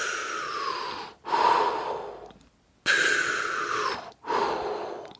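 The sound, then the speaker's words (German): Two deep belly breaths, each a long airy inhale followed by a forceful, drawn-out exhale, loud and clear with no talk and a brief quiet gap between them. “der hat einfach zweimal tief mit dem Bauch unten Luft geholt.”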